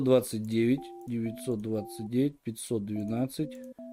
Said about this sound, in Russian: Ага, понял, сейчас набираю.